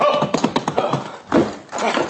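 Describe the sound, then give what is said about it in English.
A ridden horse's hooves clip-clop in a quick, uneven rhythm of loud beats that continue throughout. “Who is that on the horse?”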